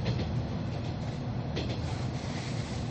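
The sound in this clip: A 165 series DC express electric train arriving at Niigata on the final revenue run of a special farewell express. It makes a steady, continuous rumble with faint rail clatter, with no talking.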